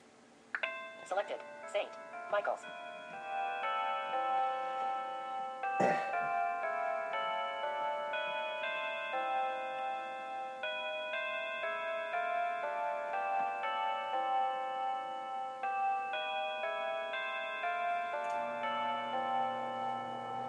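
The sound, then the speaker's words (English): St. Michael's clock chime played from a chime app: a long, steady melody of ringing bell tones lasting about twenty seconds, each note sustained and overlapping the next, preceded by a few light taps at the start. “It kind of sounds like the Whittington a little bit. St. Michael's. But we're going to try St. Michael's and you'll see what it sounds like.”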